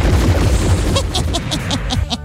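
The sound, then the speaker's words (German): Gunshots from a gun ring out as a rapid series of several sharp, cracking reports at an even pace, laid over a loud, dense, rumbling bed of sound. “Aber Fickgesicht hat eine Kanone.”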